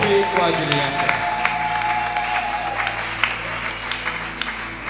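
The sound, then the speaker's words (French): A church audience applauds and acclaims during a Christmas celebration service, a dense, steady wash of clapping with voices heard over it. “Est-ce qu'on peut acclamer, célébrer le Seigneur?”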